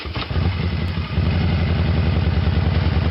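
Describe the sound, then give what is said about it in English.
A motorcycle engine roars during a charity motorcycle ride, a loud, steady, throbbing rumble with a fast pulsing beat that holds throughout. “Can you hear it? It's the sound of thunder. Thunder of chrome, steel, excitement, and wishes. The Twister Wrist to Grant a Child's Wish motorcycle ride in support of the Children's Wish Foundation will once again thunder by”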